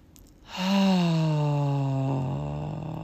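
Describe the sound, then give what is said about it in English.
A person takes a deep breath and lets it out as a long voiced sigh. The single sustained exhale is fairly soft and slowly drops in pitch. “Oh, take a breath.”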